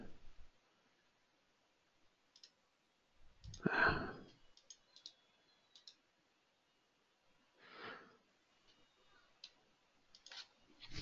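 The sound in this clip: Faint computer mouse clicks, a few sparse, sharp ticks spread out over quiet stretches, heard alone with no talk.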